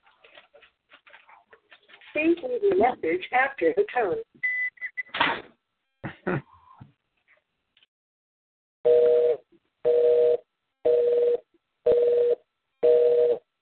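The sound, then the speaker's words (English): A phone rings in an office with five evenly spaced electronic ring bursts, each steady in pitch, after a stretch of people talking and a few scattered noises. “What was that? I think it's Jonas's phone ringing in the office.”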